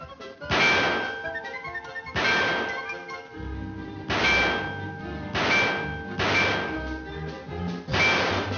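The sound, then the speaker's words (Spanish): Gunshots ring out at a cartoon shooting gallery as shots hit targets: six sharp, loud bangs at uneven intervals, each carrying a bright metallic ding. “Prueba tu puntería. 5 disparos por 25 centavos. ¡Dispara!”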